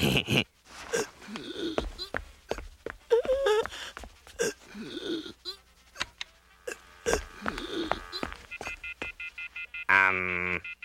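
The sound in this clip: Telephone tones from someone dialing 911 for emergency services, a brief burst of bright tonal beeps near the very end after a long stretch of animated talking.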